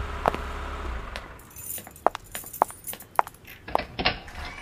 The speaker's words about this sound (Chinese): 掏钥匙开门